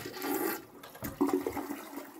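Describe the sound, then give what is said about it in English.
Toilets flushing in a ladies' room, a faint rushing and gurgling of water that runs through the whole short stretch with several small surges. “Zipping into the ladies' room, Jazz quickly flushed the toilets.”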